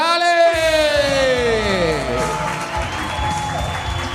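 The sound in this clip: Audience applause and cheering greet a performer introduced on stage. A drawn-out, shouted voice rings over the opening, while clapping and crowd noise continue steadily underneath.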